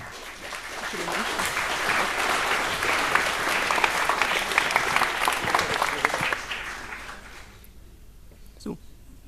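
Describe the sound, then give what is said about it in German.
Audience applause for a speaker at a lecture event: dense, steady clapping that holds for several seconds, then thins out and fades, leaving a faint background and one brief knock near the end. “Bitte eine Runde Applaus für”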